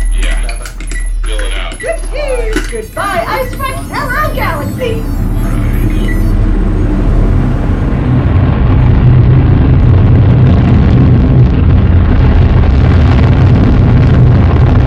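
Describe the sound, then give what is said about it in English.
A spaceship's engines fire up for launch. Electronic beeps and warbling tones over a low rumble give way to a loud, dense roar that swells and holds steady to the end. “Starting the final launch sequence. Engine room, Ray, hey, fire her up.”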